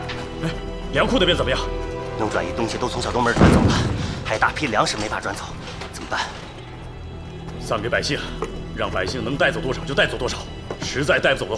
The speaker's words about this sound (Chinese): 鬼子占据了鼓楼，在上面疯狂的扫射，打得我们人都抬不起头来。